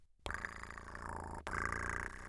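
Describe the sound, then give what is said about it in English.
A sleepy barn cat purrs when tapped, giving a steady, continuous rumble that lasts about two seconds with one brief dip partway through, heard alone. “Give the sleepy barn cat a gentle tap.”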